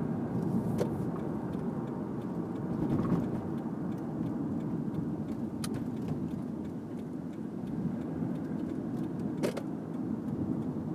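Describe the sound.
Steady road and engine rumble from inside a moving car, a continuous low roar that holds level throughout with no voices.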